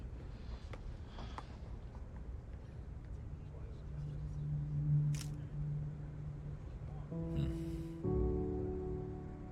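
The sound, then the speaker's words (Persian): A camera shutter fires as a photo is taken, a brief sharp click standing out from a low background hum, while people talk. “یه عکس میگیرید؟ بله حتما. خیلی ممنون. فقط کافیه این دکمه رو فشار بدیم.”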